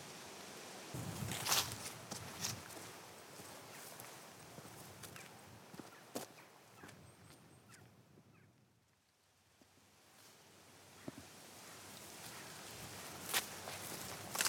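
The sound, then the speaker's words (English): Footsteps climbing over a wall stile in the corner of a field: faint, irregular scuffs, thuds and rustles over a quiet outdoor background. “Just climbed over a wall stile in the corner of the field”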